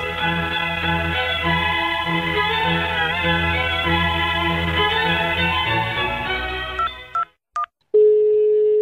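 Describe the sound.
A telephone number is dialled to call the authorities. A long run of layered electronic tones plays, then a couple of short beeps follow, and a single steady tone ends it.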